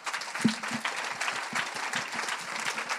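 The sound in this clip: Audience applause at a French-language talk, a dense, steady clatter of many hands clapping that holds evenly for about three seconds.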